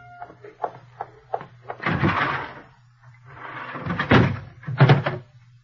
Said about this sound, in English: I was quite calm when I stepped into the telephone booth beside the club desk.